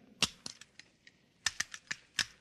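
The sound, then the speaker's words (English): Sharp metallic clicks and snaps as a firing pin is put back into a pistol, a few crisp clicks followed by a tighter burst of several more, with quiet between them. “Now, let's see you put back the firing pin.”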